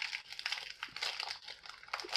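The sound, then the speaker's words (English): A plastic package of frozen cookies-and-cream snacks crinkles as it is pulled open, making a quiet, uneven run of many small crackles and crunches. “I'm struggling getting this package open. There we go.”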